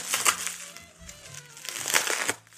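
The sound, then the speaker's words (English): Crinkling of plastic bubble wrap as it is turned and handled while someone searches for the taped end, with a few short rustling bursts and light crackles. “Bubble wrap. Okay, gotta find the taped end.”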